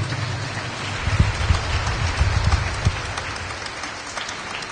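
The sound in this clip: Applause from a church audience at a Sunday Mass, a dense, steady wash of many hands clapping at a fairly constant loudness with no clear breaks and no talk.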